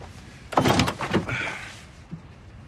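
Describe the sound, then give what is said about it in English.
A car's passenger door being opened: a burst of handle and latch clatter with mechanical rattling, then a brief faint thunk a moment later. “tries to open the passenger door”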